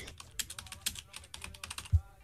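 Fingers type on a computer keyboard in quick, irregular clicks with a few sharper taps, and one heavier thump lands near the end, like a key being hit hard.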